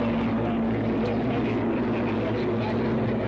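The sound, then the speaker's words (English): Racing hydroplane engines roar as three boats run close together in a rooster tail, jockeying for position. The sound is a loud, continuous drone that stays steady throughout. “Three boats are in a rooster tail now.”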